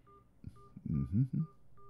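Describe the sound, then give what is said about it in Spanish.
Keypad tones from dialing a phone number, a few short electronic beeps at steady pitches, with a brief low voice sounding in between. “Voy a marcar el número de mi familiar.”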